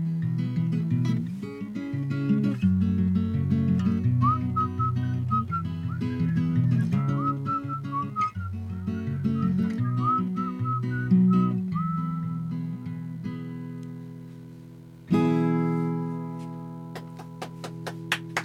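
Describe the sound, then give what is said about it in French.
Human whistling carries a clear mid-high melody above instrumental chords at a live radio concert, the tune weaving steadily for several seconds before fading while the music plays on. “à siffler avec moi, parce que c'est un excellent siffleur”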